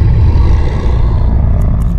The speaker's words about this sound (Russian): а потом громкий протяжный рев